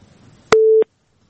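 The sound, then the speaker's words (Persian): A telephone busy tone sounds after a phone-in call drops: one short, steady mid-pitched beep, clipped on and off by sharp clicks, followed by silence. “بازم تماس قطع شد.”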